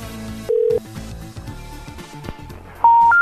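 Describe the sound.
Telephone keypad beeps as a call is dialed. One short steady tone sounds early, then two higher beeps come at the end over a cluttered background.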